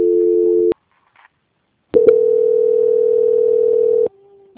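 Telephone line tone during a call transfer: a loud, steady electronic tone holds, breaks off into silence, then returns for about two seconds before dropping to a fainter tone at the end. No one speaks.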